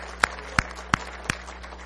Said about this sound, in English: Why don't you just give Him a good hand clap and say, thank you, Jesus.